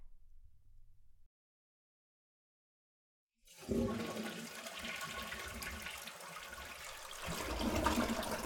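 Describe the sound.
A toilet flushes: after silence, loud rushing water starts abruptly and pours steadily, swelling slightly toward the end, with no voices.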